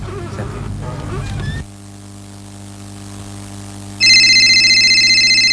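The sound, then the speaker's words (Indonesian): An electronic telephone ring, a debt collector's incoming call, cuts in loud and warbling near the end after a stretch of low steady hum that follows a brief opening burst of music. “tukang kredit nih nelpon”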